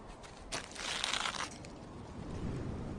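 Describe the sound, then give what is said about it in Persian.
A bag is opened with a faint, crinkling, crunching rustle that swells for about a second, then settles into a softer, continuing rustle. “بیاین اول کیسه رو باز کنیم که ببینیم واقعا چی توشه.”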